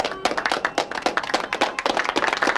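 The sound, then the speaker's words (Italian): Applause made of dense, irregular hand claps, fairly loud and steady for the whole stretch with no voices over it. “Non sono mica per te gli applausi. Lo so, ma quando sento degli applausi”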